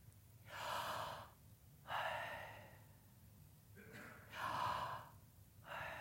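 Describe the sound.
Deep human breathing, a few slow, loud breaths drawn in and let out, each a broad airy rush that swells and fades, with pauses between them and a low steady hum underneath.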